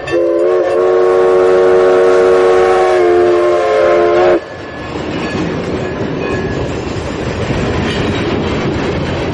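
A train-passing sound effect opens with a long, loud, sustained horn blast of about four seconds. It then gives way to the steady rumbling clatter of the rolling train.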